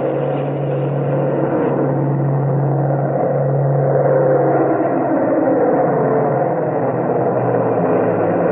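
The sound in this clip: B-29 bombers taking off from fields in China: a steady, loud engine roar with a sustained low drone and rumble, holding nearly constant throughout, with no voices.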